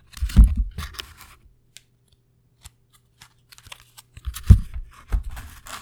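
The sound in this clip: A tarot deck is cut in half, tapped and dealt into piles, giving soft scraping card bursts at the start and end with a few faint ticks in between.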